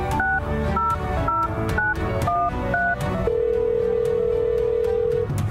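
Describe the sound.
Traditional landline telephone sounds: six short two-pitch keypad beeps in a steady rhythm, then one long unbroken steady tone, all over a rhythmic music bed.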